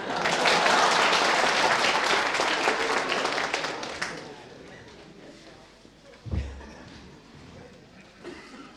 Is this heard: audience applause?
yes